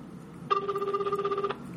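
Telephone ringback tone heard while placing a call: one steady, warbling two-tone ring lasting about a second, alone with no voices.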